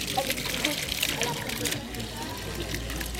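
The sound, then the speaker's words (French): Water gushes in a steady, broad hissing rush while people talk over it. The flow stays continuous and moderately loud for the whole stretch. “De l'eau. Eh oh, de l'eau. Oui. Beaucoup d'eau. C'est beau l'eau.”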